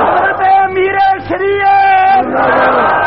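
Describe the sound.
A crowd chants in unison in answer to a takbir call, with a few loud, sustained shouted phrases separated by brief dips.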